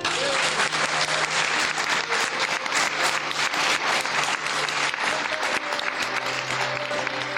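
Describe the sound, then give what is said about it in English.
A big round of audience applause for the guests at the Winchester Science Festival, with thick, continuous clapping from many hands that holds steady and loud from start to finish. “I'd love you to give a huge round of applause to our various guests.”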